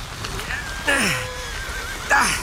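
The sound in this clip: A horse pulling a one-horse carriage neighs twice, each whinny a loud, shrill cry that slides downward in pitch, the second one coming just after a pause.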